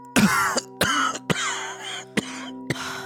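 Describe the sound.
A man's harsh, rasping coughing comes in a run of about five short bursts, separated by brief pauses, over a faint steady hum.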